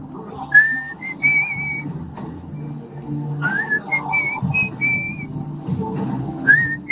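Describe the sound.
Someone whistles a melody in a few short phrases, with clear, high, bright notes that slide and bend, over a quiet low background.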